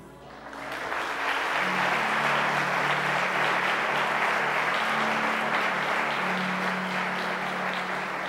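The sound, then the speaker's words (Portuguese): An audience at a church service applauds in a dense, even clatter of many hands. The applause builds over the first second and then holds steady and loud, with a faint low sustained tone underneath. “Can we give him a hand? Nós podemos aplaudi-lo.”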